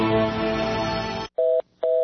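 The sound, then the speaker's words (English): Telephone tones from a call that cannot be completed: two short, steady tone bursts separated by a brief gap, following a dense, sustained sound at the start. “We're sorry. Your call cannot be completed as dialed. Please hang up.”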